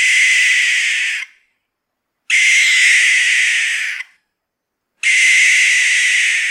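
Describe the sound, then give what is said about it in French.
Barn owl screeches: three long, harsh, hissing shrieks, each over a second, loud and alone, separated by short silences. “Voici par exemple le cri d'une chouette effraie. Et on a vérifié, on en trouve bien dans la région.”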